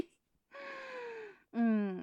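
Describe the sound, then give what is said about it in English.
A person yawns: a drawn-out voiced breath sliding gently downward in pitch, then, after a short pause, a second louder, shorter voiced exhalation, fairly quiet overall. “A yawn and an aftershock.”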